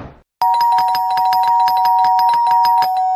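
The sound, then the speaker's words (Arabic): An apartment doorbell held down on a stairwell landing, giving a loud, continuous electric ring with a fast rattling pulse for about three seconds after a short muffled sound at the start. “كمل طلوع لحد ما وصل لشقة تانية وفضل معلق ايده على الجرس.”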